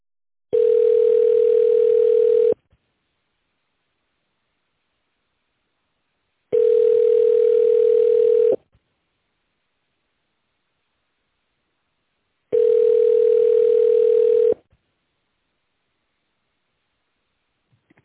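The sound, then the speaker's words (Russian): Telephone ringback tone while waiting on the line for a company switchboard: three long, steady, mid-pitched tones of about two seconds each, separated by even silent gaps of about four seconds. “Оставайтесь на линии, на ваш звонок обязательно ответят.”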